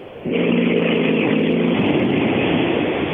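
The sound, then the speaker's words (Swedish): A car arriving with a loud engine roar and a steady humming tone that fades after a moment, leaving a broad rushing noise that stays loud to the end, with no talk. “Nu kommer bilen. Nu ska vi se vem det är.”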